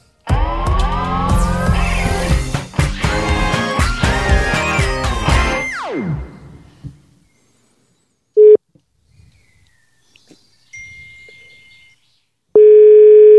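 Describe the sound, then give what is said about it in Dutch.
An outgoing telephone call follows a loud, swelling musical sweep that dies away. A short steady tone comes next, then faint keypad-like beeps and another steady, clear call tone alone. “Dus laten we bellen.”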